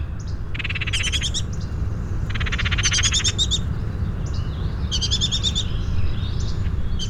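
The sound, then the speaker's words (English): Oriole fledglings beg from adults in oak trees while an overworked parent chatters. Three bursts of rapid, buzzy, high-pitched calls stand out over a steady low background hum. “I don't have my oriole feeders up, but I knew these families had been around hoovering insects out of the oaks, the noisy fledglings still begging from the adults, which sounds like this. The chattering is the overworked parent.”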